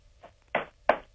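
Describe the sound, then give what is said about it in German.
Knocking on wood for luck, heard during a phone conversation: a faint first tap is followed by two firmer, evenly spaced knocks, each short and dull. “ich habe gehört, wie du geklopft hast.”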